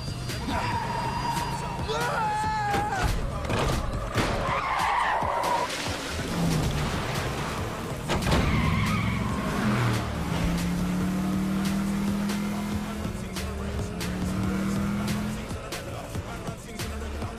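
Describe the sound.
A car skids with tyre squeal and engine noise while being driven in a video game; the continuous, fairly loud skid runs through the whole clip, with tonal engine notes climbing in the second half.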